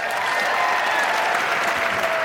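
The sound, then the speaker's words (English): Audience applause and cheering from a Broadway theater crowd: a dense, loud, unbroken wash of clapping that holds at a steady level from start to finish. “Broadway is cheering right now.”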